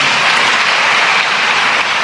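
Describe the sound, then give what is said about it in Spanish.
Applause from a church audience, a dense, even wash of many hands clapping at once that holds steady and moderately loud throughout the brief moment. “Dile un aplauso al don de Dios.”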